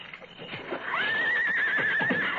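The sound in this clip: A restless horse neighing in its stall: one drawn-out, high, wavering whinny that rises in and holds, over low rustling and faint shuffling.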